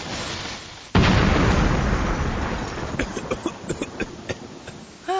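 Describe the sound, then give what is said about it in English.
A backyard grill explodes as it is fired up: a sudden loud boom, then a long rumbling roar that slowly fades, with scattered crackles and pops near the end. “All I have to do is fire up the grill.”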